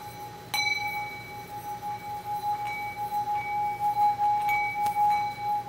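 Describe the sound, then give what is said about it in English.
A bowl rings after being struck by a solenoid: one sharp strike sets off a clear, sustained ringing tone with bright overtones, and a few lighter taps follow that keep it humming steadily. “can I show how the bowl sounds? I haven't practiced this much, so sometimes it just doesn't.”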